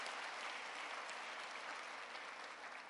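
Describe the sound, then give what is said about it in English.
Church audience giving a hand clap during a service, a faint, dense spread of many hands clapping at a steady level with no voices over it. “Let's get a Lord a hand clap.”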